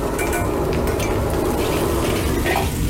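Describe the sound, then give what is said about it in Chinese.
Chili segments and red Sichuan pepper fry in a wok over low heat, giving a steady, dense sizzle that runs unbroken throughout, with light scraping from stirring. “然后开小火把辣椒爆香。”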